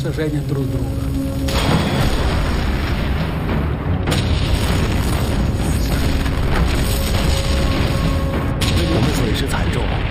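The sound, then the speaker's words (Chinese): Artillery fire exchanged with enemy forces during a German assault, heard as a dense, continuous loud rumble of booms with a few sharper blasts standing out. “我们与敌军开始互相炮击。”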